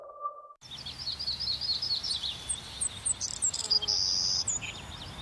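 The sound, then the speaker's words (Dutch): Birds whistle and chirp in a dense, overlapping chorus of quick high notes that runs steadily after a brief electronic tone at the start. “Blijf genieten van het gefluit van vogels.”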